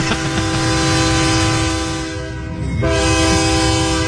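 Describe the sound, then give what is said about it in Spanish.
Loud, sustained horn blast with a train-like harmonic tone that holds steady for several seconds, dips briefly, then swells back at full strength; no voices. “Pítele otra vez, que le toque el pito otra vez.”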